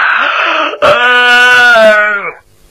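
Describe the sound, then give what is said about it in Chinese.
A voice imitates a yawn: one loud, drawn-out voiced breath that sags slowly in pitch and fades out, preceded by a short breathy intake. “假装着打了几个哈欠”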